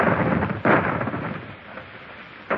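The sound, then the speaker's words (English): Booming cannon fire from a warship's guns: a broad, rumbling roar with a sharp burst early on and another near the end, and no talk. “I advise you to put up that pistol and surrender, Captain Nerville. Those are the guns of the Indefatigable.”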